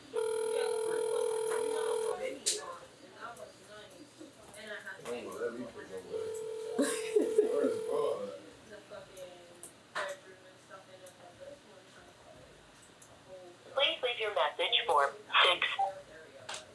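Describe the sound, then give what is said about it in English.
Telephone keypad dialing tones come through as a few short, faint electronic beeps in separate bursts, scattered under steady talk from people in a game. “We dial one more number. I'm dialing 8.”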